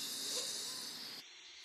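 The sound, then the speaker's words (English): A deep inhale through the nose during a guided breathing exercise: a steady, airy hiss of drawn-in air that holds level, then drops away abruptly just before the end. “We're just going to take a deep breath in through your nose.”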